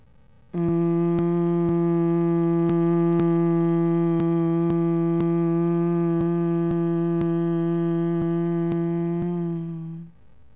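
Steady low humming through the nose on the exhale during bee-breath (Bhramari) breathing, one sustained level note held for about nine seconds before fading, with faint regular clicks running through it.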